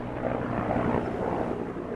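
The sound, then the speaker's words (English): Medical helicopter taking off from a sprawling veterans hospital campus in Los Angeles: a loud, steady low rotor and engine rumble with a broad roar, holding level throughout. “A medical helicopter takes off from the VA sprawling campus.”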